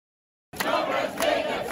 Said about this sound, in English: The embattled leader's birthday was all jeering, not cheering, Sunday.